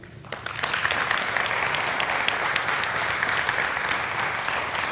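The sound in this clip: Audience applause at Grace Church welcoming a guest speaker: dense, steady clapping that rises quickly at the start and holds loud and even to the end.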